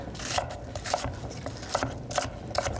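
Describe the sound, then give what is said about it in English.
A knife chops an onion into rough chunks, sounding as a few steady, moderately loud cutting knocks with a soft rasping scrape between strokes. “I'm just going to slice it up just into chunks. Not super fine, we haven't got all day to make tiny bits of onion”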